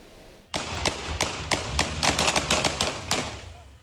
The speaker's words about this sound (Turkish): Küçükçekmece sokakları silah sesleriyle yankılandı. Polis ekipleri dur ihtarına uymayan otomobile uyarı ateşi açtı.